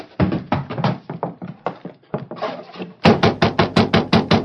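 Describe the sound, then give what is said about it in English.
Knocking on the door of a ranch house: uneven knocks at first, then a loud, rapid series of sharp, evenly spaced raps on wood. “Riding up to the house, they quickly hitched their horses and knocked on the door.”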